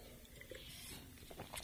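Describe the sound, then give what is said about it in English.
Faint, wet mouth sounds of a radio host sipping water on the air to ease a dry mouth, with small soft clicks and squishes spread across a brief moment. “Well, I'm going to take a little sip of water here. I'll tell you, sometimes when you're on the air, your mouth just gets pretty dry.”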